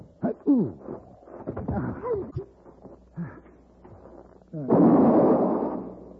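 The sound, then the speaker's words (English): A single loud rifle shot bursts out near the end. Its noisy blast decays over about a second and a half, following a stretch of quieter tonal sounds. “I got him. He's dead. Yeah. Paladin, I shot the Redskin.”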